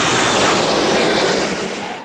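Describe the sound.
Airliner landing in Barcelona on the air shuttle route gives a dense, loud, steady roar that thins slightly toward the end.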